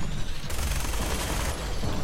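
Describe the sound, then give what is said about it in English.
A minigun fires in a video game as a dense, roaring stream of rapid shots that swells louder for about a second in the middle before settling back. “my minigun is getting hot, too. Right, I'm getting a bunch of good shots on him.”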